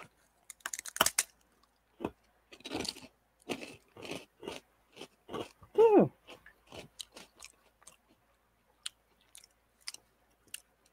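Biting and chewing a light, dry, not-cold Neapolitan ice cream sandwich snack: many crisp crunches in uneven bursts with sharp clicks, loudest in a cluster midway, then tapering to sparse crunches.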